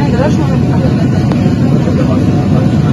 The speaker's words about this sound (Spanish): Seguimos en el avión en Santa Cruz, no nos dejan bajar